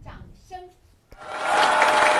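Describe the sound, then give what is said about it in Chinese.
Warm applause from an audience swells up after a short stretch of speech, then holds as dense, steady clapping to the end. “掌声，热烈的掌声响起来”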